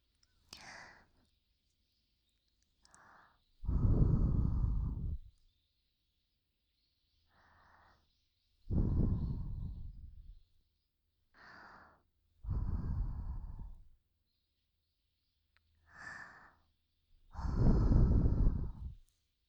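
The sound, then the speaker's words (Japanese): Breath blown softly into the ear to finish an ear cleaning on the right ear: four long, airy, hissing blows with quiet pauses between them, each preceded by a brief, fainter breath. “仕上げに息失礼しますね。”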